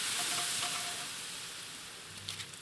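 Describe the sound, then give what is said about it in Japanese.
Beef simmering in a pot of garlic, soy sauce, Worcestershire sauce and sake over medium-low heat gives a steady, dense sizzling hiss with faint bubbling ticks near the end and no voices. “鍋にニンニク、醤油、ウスターソース、酒を入れて沸騰させます。こんがりと焼いた牛肉を入れて”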